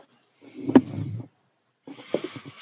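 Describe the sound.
A voice imitates heavy breathing during a tabletop game session, giving two rough, snorting, snore-like breaths, moderately loud and separated by a short silence.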